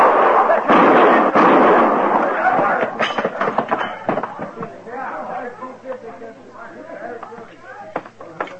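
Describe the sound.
Sharp gunshots ring out in a western film scene, with a few loud bangs early amid dense commotion. Men's voices follow and carry on over quieter background sound.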